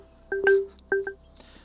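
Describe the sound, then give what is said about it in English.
Electronic telephone tones announce an incoming call during a live call-in chat. Two pairs of short, clear beeps sound alone and fairly faint, with a brief gap between the pairs. “We got a caller right now. We got another call coming in.”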